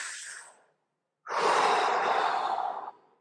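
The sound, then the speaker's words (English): Deep, slow breathing: the tail of one airy breath fades out, then after a short silence a long, steady breath rushes in at moderate loudness and ends abruptly. No talk. “you want to just deep inhale, deep exhale”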